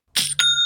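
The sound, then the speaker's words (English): An online store's sale notification chime rings out in two bright, bell-like tones, the second lingering with a clear sustained ring, with no voices. “You know, I love that sound. That sound makes me smile because that is the sound of another sale on Shopify”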